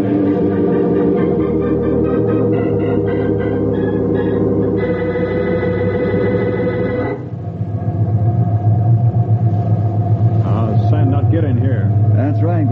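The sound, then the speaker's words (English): Heavy sandmobile truck with big tires and small sealed windows driving through a sandstorm, giving a loud, steady low rumble and roar that runs unbroken through the whole scene. “Lucky we had one of these in our area. Government built only a few, call them sandmobiles. Heavy tires, small windows, seal the course.”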